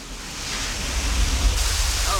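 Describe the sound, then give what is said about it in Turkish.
Spring water rushes in a steady, broad hiss over slippery rocks, a continuous even wash of flowing water that swells slightly in loudness partway through. “Gördünüz mü? Su buldum. Bunun için birkaç dakikamı ayıracağım çünkü kaynak suyuna benziyor.”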